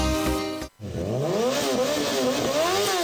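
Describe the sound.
A motorcycle engine revs loudly, its pitch climbing and falling in waves, with no one talking. It drops out for a moment early on before the revving picks up again.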